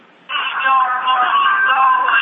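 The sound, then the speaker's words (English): Radio or TV sound leaking into a phone call, heard through the line as tinny, narrow-band audio that starts abruptly after a short near-silence and continues steadily at a fairly loud level. “Somebody got a radio or TV on. Could everybody mute their phone?”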